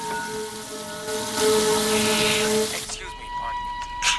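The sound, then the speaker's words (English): Water runs from both taps of two sinks, a loud, broad rushing hiss that holds steady for a few seconds before dropping away near the end. “She moves over to the two sinks and quickly turns on both sets of taps”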